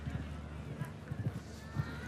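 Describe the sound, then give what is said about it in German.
A horse gallops during a show jumping round, its dull hoofbeats thudding in rhythmic groups beneath a man's talking. “So, und Starissa hat Galopp. Den lässt er nochmal raus, den Galopp.”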